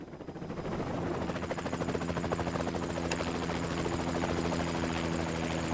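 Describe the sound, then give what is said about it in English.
A helicopter prepares to land on pristine snow on a craggy, pine-dotted mountainside. Its rapid rotor chop and whine swell in over the first second, then hold loud and steady. “Against a backdrop of craggy mountainside and a peppering of pine trees, the helicopter prepares to land on a carpet of pristine snow.”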